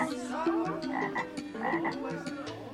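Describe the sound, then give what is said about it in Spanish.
Croaking of a very large toad, a steady run of throaty, rhythmic calls repeating many times with no voices over them. “El brujo Jujú se convirtió en un sapo grandísimo y entre salto y salto llegó al gran río”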